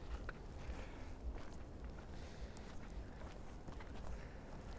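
Footsteps walking along a woodland path in Pelham Bay Park, a faint, steady rhythm of soft steps over a continuous low background rumble.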